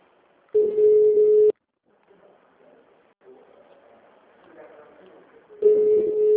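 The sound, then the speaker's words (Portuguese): A telephone call is placed and the line rings back: a steady low tone sounds for about a second, a pause with faint hiss follows, then the same tone starts again. “Deixa eu ligar pra Miriam também, que hoje é o último dia pra ela vir assinar esse contrato.”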